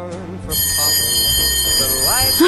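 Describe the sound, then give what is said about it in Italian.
An electric school bell rings continuously and loudly for about two seconds after a brief pause, its steady metallic tone unbroken, marking the return to lessons; a voice is briefly heard at the start and near the end. “E tra poco, cari ascoltatori, vi dovremo lasciare perché suonerà la campanella e il ritmo scolastico riprenderà regolarmente.”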